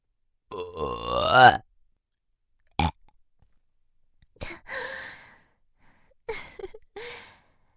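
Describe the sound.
Burp-like throaty exhalations blown from a shrine maiden's mouth, four separate bursts: a long voiced one with wavering pitch, a short abrupt one, then two rougher, breathy ones, each separated by silence.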